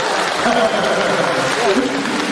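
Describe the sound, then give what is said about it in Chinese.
Audience applause at a live stage show: a steady, dense patter of clapping that fills the whole moment, with a voice speaking over it. “鼓掌啊！”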